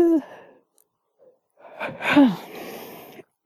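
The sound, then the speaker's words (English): A drawn-out human yawn, breathy and strained, with a voiced tone that sweeps downward near its end; a short vocal sound comes before it, followed by a quiet gap. “well, this has actually backfired because now I've made myself tired. Now I've made myself yawn.”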